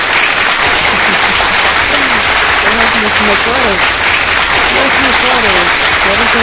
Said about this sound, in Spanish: Un aplauso para todos ustedes, por favor.